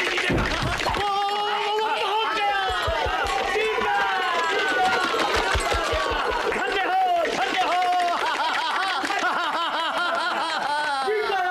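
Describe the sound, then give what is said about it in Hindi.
A chariot race gets under way before an excited crowd, with rapid rhythmic pounding under a steady stream of loud, overlapping voices and some laughter. “रथ की दौड़ शुरू हो गई। अरे वो देखो तो रेस शुरू हो गई। अरे क्या बांके और सजीले सवार है।”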